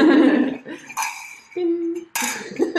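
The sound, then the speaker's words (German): Drinking glasses clink together in a toast: a few bright, tinny clinks that ring briefly, with some low background noise between them. “Wir stoßen nochmal an auf euch.”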